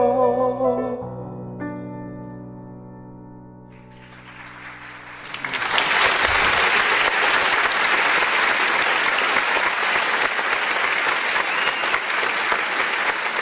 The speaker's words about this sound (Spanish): Un aplauso para ti, Alberto.